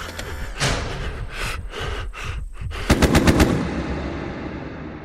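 Heavy automatic fire from an anti-aircraft gun at a military training area, used for an execution: rapid, loud bursts of pounding shots that thicken into a dense volley, then trail off into a long rumbling tail.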